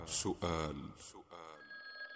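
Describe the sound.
A telephone rings in two bright bursts of a tonal bell, each followed by a harmonic ringing tone that fades toward the end.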